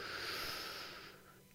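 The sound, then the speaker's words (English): One deep breath drawn in, a faint, airy rush of inhaled air that holds steady and then fades toward the end. “On the count of three, take the deepest breath you can, hold it against your diaphragm, and then exhale. One, two, three. Inhale.”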